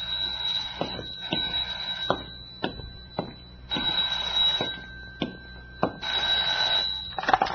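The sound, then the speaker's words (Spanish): A telephone rings with a steady, high electronic trill that carries through the whole passage, punctuated by a few sharp knocks and clatters. “¡Di órdenes de pasarme una llamada si tenía importancia! ¡Gadura cumple con esa recomendación! ¡Contestaré!”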